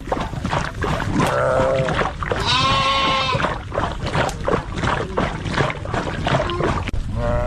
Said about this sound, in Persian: بیشتر در این گزارش که با صدای مواشی آغاز می‌شود.